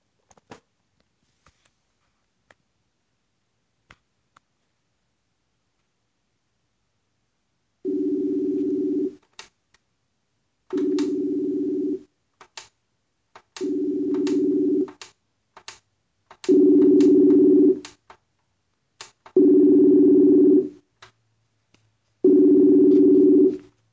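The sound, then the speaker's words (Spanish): A telephone call being dialed gives six steady, low telephone-line tones, each about a second long, repeating at even intervals after a few faint clicks, with small clicks between the tones. “A continuación vamos a marcar.”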